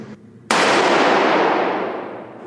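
A single loud gunshot from a .357 revolver at a shooting range, with an abrupt sharp crack followed by a long, gradually fading ring lasting about two seconds, after a quieter stretch of low noise.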